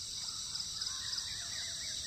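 Birds calling at dawn, with crows cawing among scattered short chirps, all fairly faint over a steady high-pitched drone that runs through the whole clip.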